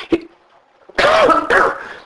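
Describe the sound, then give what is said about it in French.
Two harsh, breathy coughs in quick succession from a tired person with a sore throat, loud and alone, preceded by a brief faint click. “Puis je tousse.”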